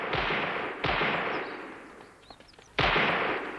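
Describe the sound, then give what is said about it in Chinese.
Live-fire shooting practice by a guard unit at the foot of a mountain: a few heavy, booming gunshots at uneven intervals, each trailing a long rumbling decay, with faint small clicks between them. “山脚下，中央警卫分队在进行实弹射击。”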